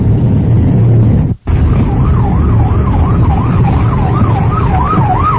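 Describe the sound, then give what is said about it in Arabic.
An emergency vehicle's siren wails steadily up and down in a traffic jam at nine o'clock, loud above a constant rumble of engines and road noise, with a brief dropout near the start. “في زحمة الساعة 9 الآن, هذا هو في زحمة.”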